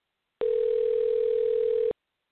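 Telephone dial tone heard while placing a call, a single steady pure tone lasting about a second and a half, alone with no speech.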